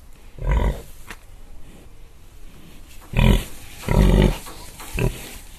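A pig grunts in a few short, low, rough bursts separated by quiet pauses, two of them close together near the end, over faint background hiss.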